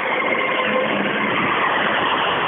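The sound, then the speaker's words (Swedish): An old car passes at a classic car event, the only car in its class, giving a steady, loud engine drone and road noise that holds at an even level throughout. “För nu kommer en gammal bil här emellan.”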